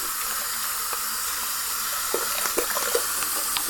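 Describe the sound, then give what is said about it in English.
Water runs steadily from a tap while someone washes with soap, making a constant hiss. A few faint small splashes and clicks come through in the second half. “Wonderful stuff, this soap and this water.”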